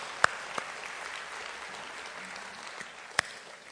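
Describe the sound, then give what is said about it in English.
A church audience claps to welcome first-time guests. The applause is steady and dense throughout, with a few sharper, louder claps standing out. “Can we put our hands together and welcome our first-time guest today?”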